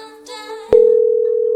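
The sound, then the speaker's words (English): A telephone tone rings on an unanswered call: a brief burst of harmonic tone, then a steady mid-pitched tone that holds with a slight pulsing to the end. “who is not going to pick up the phone. Is this the right number? I believe so.”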